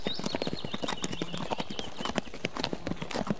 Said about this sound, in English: Let's ride along with this pony.